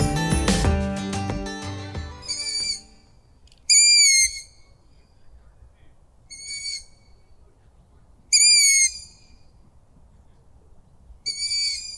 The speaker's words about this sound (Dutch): om te luisteren naar zijn verhaal achter het geluid van de ranzuil